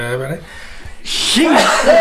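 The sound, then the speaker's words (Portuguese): A person sneezes: a loud, breathy, partly voiced burst that follows a moment of speech. “eu estou quase a espirrar.”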